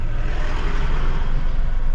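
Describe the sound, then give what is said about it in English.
Continuous road rumble of cars filing past on a route through a savanna park, a dense, even wash of engine and tyre noise with no distinct breaks between vehicles. “all the cars coming out of the direction are filing past us”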